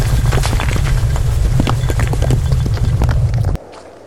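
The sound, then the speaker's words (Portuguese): Footsteps crunching across the ruined fields of Transalor, a dense, loud run of rapid, steady steps with gritty texture that stops abruptly shortly before the end. “Eu estou aqui caminhando pelos campos de Transalor.”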